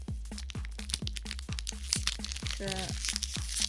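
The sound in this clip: Crunchy chewing of a corn potage flavoured snack gives many rhythmic, crisp crunches at a steady pace, with a brief voice partway through.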